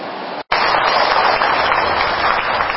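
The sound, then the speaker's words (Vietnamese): Afternoon rain pours in a dense, steady hiss, fairly loud and continuous after a very brief cut near the start. “Thấy trời mưa anh chị nè. Chứ mà rất mát mẻ, thấy không? Giờ buổi chiều mưa rất là mát mẻ,”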